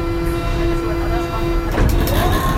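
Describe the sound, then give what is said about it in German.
Door warning chime of a Berlin underground train, a steady sustained tone that holds for most of the stretch before giving way to a short burst of noisier rail and mechanical sound at the end. “Das war die Klingel der U-Bahn.”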